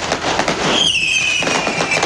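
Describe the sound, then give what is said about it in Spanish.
Fireworks set off by several people: a loud, continuous crackling and popping barrage, with a high whistling tone streaking through the middle. “Y al menos uno logra ver que no es solo una persona que está lanzando fuegos artificiales. O sea, son varias.”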